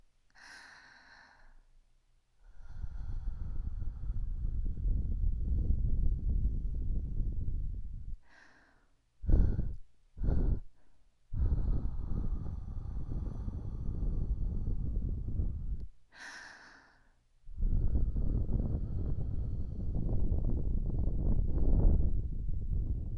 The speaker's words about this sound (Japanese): 寝る途中に綿毛でガサゴサやるのもあれだし。ふうだけ静かに済ませるね。